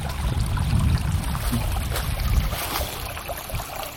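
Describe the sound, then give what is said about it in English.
A small creek only about two feet wide trickles through a trough it has worn for itself, giving a steady, dense rush of water that stays level throughout with no voices. “It's like a little mini creek. This little creek here is made a trough for itself,”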